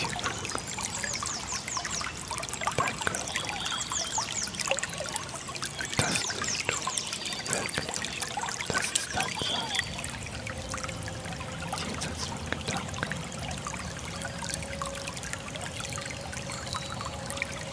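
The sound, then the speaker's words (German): Water splashes and trickles steadily throughout, a continuous, even, bubbling wash with no clear breaks and no talk. “Das Plätschern,”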